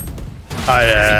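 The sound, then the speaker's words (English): Rapid gunfire in a video game match, a quick burst of shots at the start, followed by a sustained tonal in-game sound. “How did she get four shots on me? That's so fast. I got one on her and four. She got four on me. I heard four shots”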